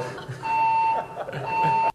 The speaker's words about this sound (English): I mean, the fire alarm went off.